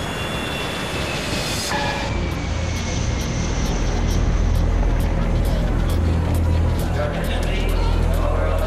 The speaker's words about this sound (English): This is your captain speaking. We're now approaching Los Angeles International Airport.